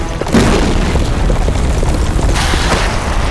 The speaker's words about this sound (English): Rocket schlock. The whole place is coming down! We have to get out of here!